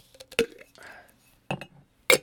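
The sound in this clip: Pot lids are handled and knocked together, giving three sharp, bright clinks spaced apart. A faint murmuring voice comes in between them.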